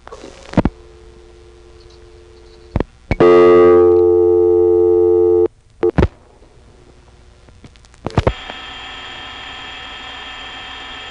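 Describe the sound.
Telephone dialing into a trunk tributary line, calling 249: a few sharp clicks, then a loud sustained multi-tone signal lasting about two seconds, more clicks, and finally a steady high tone over constant line hiss.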